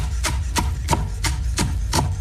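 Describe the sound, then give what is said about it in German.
Knife chopping leek and onions on a board, with six evenly spaced, crisp cuts in a steady rhythm over a constant low rumble. “So, jetzt gibt geschnibbelt, einmal Lauch und einmal Zwiebeln.”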